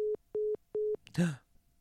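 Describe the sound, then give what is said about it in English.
A busy tone after a phone caller hung up: three evenly spaced, steady mid-pitched beeps, followed by a brief voice-like sound. “oh, that person hung up. It's okay. Maybe their phone died.”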